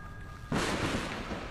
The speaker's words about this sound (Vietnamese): ngay lập tức còn có một tiếng sấm nổ đinh tai